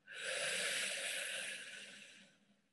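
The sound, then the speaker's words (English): One slow breath drawn in through the mouth, a soft airy rush that swells quickly, holds, then tapers away over about two seconds, faint and alone. “Inhale through the mouth.”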